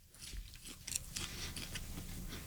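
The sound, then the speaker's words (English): Crunchy chewing of popcorn coated in soy ramen seasoning: faint, irregular crisp bites and crunches in quick succession, heard alone with no talk. “let's give this a try. This popcorn with ramen, soy ramen seasoning on it.”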